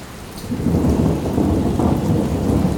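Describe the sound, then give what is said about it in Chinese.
Thunderstorm with rain, a steady hiss of heavy rainfall under deep, rolling thunder that swells in early and stays loud throughout. “很快就把太阳完全遮住了。暴风雨马上要来了，”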